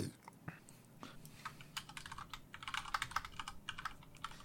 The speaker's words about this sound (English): Don't mind me while I type things.